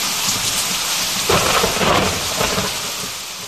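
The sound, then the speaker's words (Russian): A cold, windy thunderstorm shaking a small cabin: steady hard rain hisses throughout while a low roll of thunder swells through the middle, loud, with no voices. “Снаружи было холодно, промозгло и ветрено. Буря трясла домик, проскальзывала, как лезвие, через рамы, косяки и трещины.”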